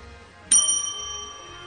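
A single bright bell ding, struck as a show sound effect: one sharp, high metallic strike followed by a long, clear ringing decay, heard alone.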